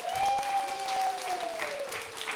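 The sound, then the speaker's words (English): Audience applause fills the room in a dense, steady wash of many hands clapping, welcoming back a woman recovering from surgery. “She is a warrior woman. She is here. This is her first day out. Let's give it up for her.”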